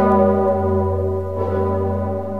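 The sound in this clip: A church bell rung by pulling ropes at Kraków's Wawel tolls loud and sustained, its rich ringing overtones held steady; a fresh strike blooms about midway while the hum carries on alone.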